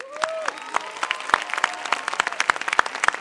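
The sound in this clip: Audience in a cinema screening room applauding to welcome guests at a film showing, with dense clapping and many crisp individual claps standing out, steady and fairly loud throughout.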